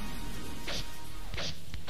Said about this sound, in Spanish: Ahora patada es igual. Z.